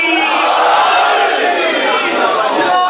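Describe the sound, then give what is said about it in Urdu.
A large crowd with raised hands loudly shouting the Naara-e-Haidari slogan at a religious gathering, a dense, sustained roar of many voices rising together throughout. “دونوں ہاتھوں کو بلند کر کے لگا دیجئے نعرہ حیدری”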